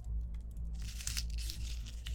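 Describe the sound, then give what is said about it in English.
A slip of paper is picked out of a jar with quiet crinkling and rustling that begins after a brief pause and continues in soft bursts over a low steady hum. “Hey, it's your turn now. Just pick a piece of paper from the jar.”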